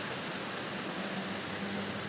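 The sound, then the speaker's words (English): Rain falls on a roof in a steady, dense hiss of drops. The texture stays even and unbroken, with no single impacts standing out. “The rain is increasing, so I shall go back in. I do need to add a gutter. Man, I need to add a rain gutter up here because the rain overflows off of the roof”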